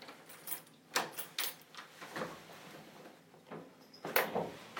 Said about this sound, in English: Let's open the door and let you all out.